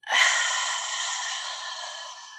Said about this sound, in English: Take a beautiful inhale all the way to your belly. And release.